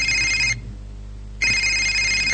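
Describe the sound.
A mobile phone rings for an incoming call: two bursts of bright, high electronic ringing separated by a short pause, loud and alone.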